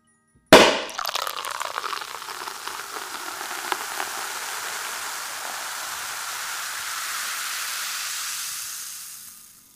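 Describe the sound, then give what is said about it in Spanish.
A champagne bottle is uncorked with a sharp pop, followed by a long, steady fizzing pour into a glass. The bright hiss holds for several seconds before fading away at the end. “me gustaría abrir y descorchar una botella de champán”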